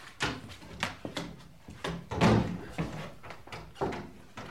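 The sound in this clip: A cupboard door is shut and locked, giving a series of knocks, thuds and rattles of wood and latch. The impacts are irregular and moderately loud, with one heavier thump in the middle.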